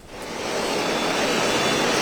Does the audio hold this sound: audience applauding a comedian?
no